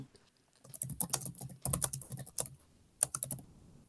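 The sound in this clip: Typing on a computer keyboard during an online search: quick bursts of crisp clicking keystrokes in a few clusters separated by brief pauses, with no talking.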